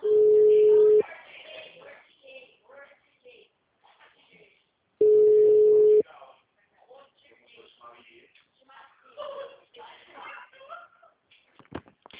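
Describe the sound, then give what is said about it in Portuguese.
A telephone call's ringback tone: two steady, mid-pitched one-second tones about four seconds apart, with people talking between them. “Eu tô ligando”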